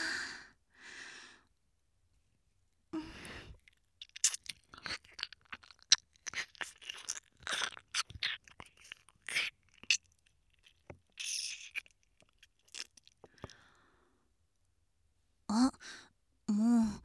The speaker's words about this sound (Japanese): 君の美味しいお耳、もっとハムハムさせてね。